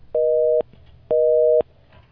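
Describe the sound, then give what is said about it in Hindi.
Telephone busy tone as a call drops: two identical steady beeps of equal length with a short gap between them, heard on their own. “Hello, मेरा ख्याल है ये call कुछ drop हो रही है हमारे।”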